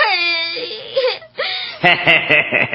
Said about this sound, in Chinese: 瞧你哭成这个样